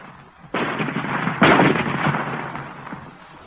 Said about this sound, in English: Ready with the range? They have found the range, Commander. You may fire. Fire!